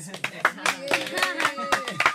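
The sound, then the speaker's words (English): Class clapping for a student who came top in the end-of-year results, a few scattered, uneven claps under people talking. “I think we should all give Jen a big clap for coming top this year.”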